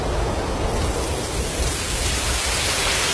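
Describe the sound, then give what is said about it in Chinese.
Steady rain, a loud, dense and unbroken hiss that holds at the same level throughout. “这是雨声”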